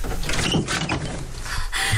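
A door being opened, with a few scraping, rattling mechanical bursts and clatters of uneven loudness across the moment.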